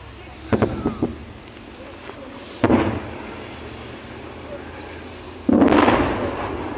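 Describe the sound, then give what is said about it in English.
Artillery rounds fired and striking, filmed in a Russian video at the intersection of Lyashenko and Petrovskoe Street during the Russia-Ukraine war: a few booming thumps spaced seconds apart, the last a long, loud rumbling blast over steady background noise. “In a Russian video geolocated at the intersection of Lyashenko and Petrovskoe Street, the sound of three outgoing rounds is captured, and two of the three impacts. Here is the clip.”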